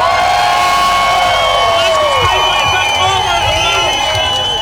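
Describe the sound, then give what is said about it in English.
Crowd cheering and whooping at a Pride march in Glasgow city centre: a loud, continuous roar of many voices with scattered shouts rising above it. “Thousands of people have taken part in Glasgow Pride, marking 25 years of organised marches in Scotland's largest city.”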